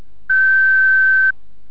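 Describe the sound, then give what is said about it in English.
A single steady electronic beep of about one second at a fixed pitch, the answering-machine tone on a college telephone line prompting callers to leave their name and address, set against near silence. “leaving details of your name and address after the tone”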